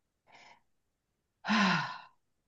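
A person taking a breath: a short soft intake followed by a longer, louder breathy release with a slight voiced sigh in it, no talking.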